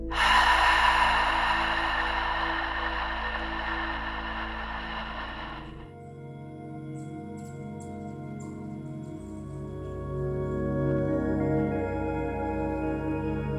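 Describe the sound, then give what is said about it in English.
A long, airy breath is taken during a yoga meditation. The sustained breathy hiss fades out after several seconds, while soft, sustained music plays underneath throughout. “Let's breathe in through your nose. And push it out of your mouth.”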